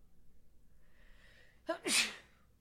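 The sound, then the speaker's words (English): A single loud sneeze bursts out near the end, with a sharp breathy intake just before it, after a stretch of quiet low background. “You just sneezed after doing Mr. Chew”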